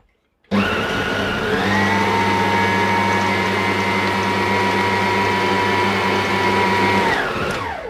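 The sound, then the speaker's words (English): An electric mixer whirs as it blends baking ingredients, a loud, steady motor drone that starts abruptly, holds an even pitch throughout and winds down at the end. “I'm just going to mix that together.”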